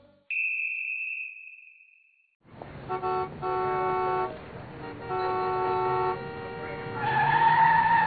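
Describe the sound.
A car brakes while cutting in, with a steady high-pitched tyre squeal. After a short silent gap, a car horn sounds in a few honks of varying length, ending in a longer, louder blare.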